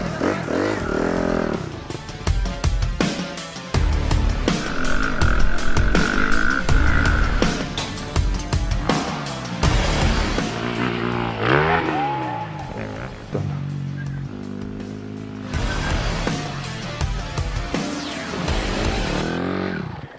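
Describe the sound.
A motorcycle engine revs hard during a riding-training jump and landing, its pitch climbing and dropping repeatedly in loud bursts of throttle with gear changes between them.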